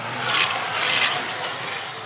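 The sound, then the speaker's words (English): Cars racing round a track give a steady, moderately loud engine roar that swells a couple of times as they pass. “At the track, the cars speed round and round.”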